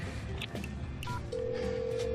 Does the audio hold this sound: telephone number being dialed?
yes